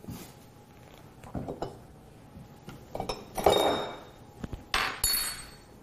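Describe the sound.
Spoon clinking and scraping against a glass while sea salt is stirred into a drink, a few bright metallic clinks in two short bursts over faint background noise.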